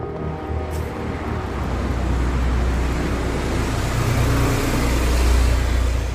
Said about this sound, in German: Die Adresse liegt an einer vielbefahrenen Straße.